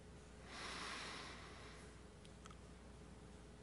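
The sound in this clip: Soft, slow exhale during a breathing prayer: one faint, airy rush of breath lasting about a second, then quiet.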